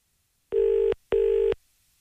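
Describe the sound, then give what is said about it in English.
Ringing tone of an outgoing phone call: two short, clear tone bursts in quick succession, forming a double ring, followed by silence. “Hang on one second. It's ringing.”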